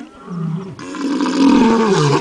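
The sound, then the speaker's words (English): A lion's roar played back from a video: deep, loud, drawn-out growling roars that continue without a break, with no voices. “Miguel just pulled up a YouTube video of a lion roaring”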